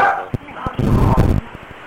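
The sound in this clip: Dogs bark and yip in short, irregular bursts, fairly loud, mixed with a person talking.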